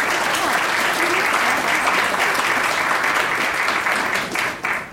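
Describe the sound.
Warm applause from an audience welcoming a lecturer to an evening course talk, dense and sustained at a steady level, then thinning and breaking up near the end.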